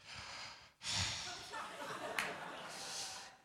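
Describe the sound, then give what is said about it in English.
A voice imitating heavy breathing into a small wired microphone during a meeting: a few faint, breathy exhalations and puffs, one longer and stronger than the others, with short gaps between them. “that's the thing you're hearing through the mic. It's just heavy breathing.”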